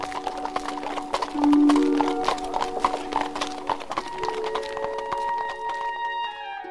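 Hooves clip-clop as a horse-drawn carriage arrives at a station, a steady, brisk run of many hoof strikes. Sustained tonal sounds run alongside the hoofbeats.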